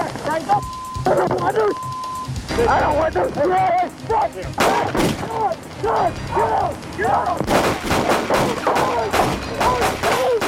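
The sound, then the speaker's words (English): Gunfire at point-blank range as officers and a gunman wearing a bulletproof vest exchange shots. A run of sharp, loud cracks comes mostly in the second half, heard beneath talking voices. “They are firing point blank, but the officer doesn't realize the gunman is wearing a bulletproof vest.”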